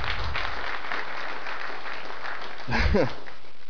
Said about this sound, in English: you deserve an applause, man.